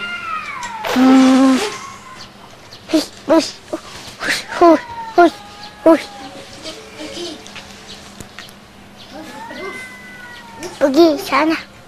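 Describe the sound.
Cats fighting: a loud, harsh yowl opens, then many short, high, strained meows and cries follow in an uneven string over a steady low hum.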